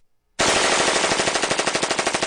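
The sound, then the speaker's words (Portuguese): Rapid automatic gunfire bursts in abruptly after a short silence. Many shots follow in a fast, even rattle that stays loud and sustained to the end. “Ele tá atirando pra todo lado”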